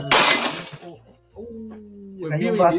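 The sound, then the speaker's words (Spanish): A drinking glass shatters in a loud, bright burst of breaking and tinkling that fades within about a second, followed by people talking. “Se echó un vaso.”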